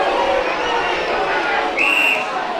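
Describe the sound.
A football crowd whistles and roars in a dense, continuous wash of noise, with a sharper whistle standing out briefly near the end.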